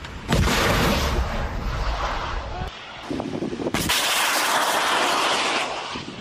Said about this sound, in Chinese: 依序执行脱式2A 飞弹检测射击以及脱式2B 飞弹的验证射击。 发射喽！